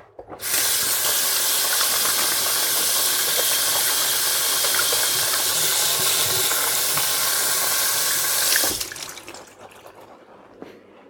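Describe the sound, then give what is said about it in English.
Water from a tap rushes with a strong, steady hiss as oily hands are rinsed under it for about eight seconds. The flow then stops abruptly, leaving quieter, scattered handling sounds. “I'm gonna rinse my hands off. They're very oily.”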